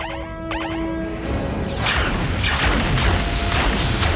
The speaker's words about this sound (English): You have phasers. Fire!